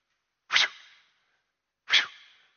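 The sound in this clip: A voice imitates the whoosh of a scythe cutting grain on a farm with two breathy, airy swishes. Each starts sharply and trails off softly, with a pause of over a second between them.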